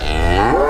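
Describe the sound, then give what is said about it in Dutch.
A cow named Linda, nearly five years old, gives a single short, loud moo while calling her calf, a full-bodied low call whose pitch lifts slightly toward the end. “Dus dit is Linda, bijna 5 jaar als koe.”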